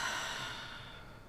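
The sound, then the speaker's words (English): A deep breath during guided meditation, heard as a long, airy, breathy rush that starts fairly strong and slowly softens with no talk over it. “we're going to go ahead and close our eyes and take a deep breath.”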